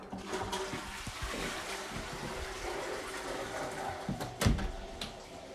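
A toilet flushes in a home bathroom, a steady, fairly faint rush of water running throughout, broken near the end by a sharper thud or gush before settling again.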